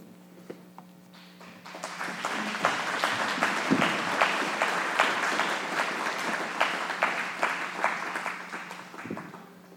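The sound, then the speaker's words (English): Audience applause welcoming guests at a Bible camp: after a few scattered claps, many hands break into sustained, dense clapping that holds steady for several seconds, then thins out. “We pray that we'll give them a warm welcome here at Morningstar Bible Camp.”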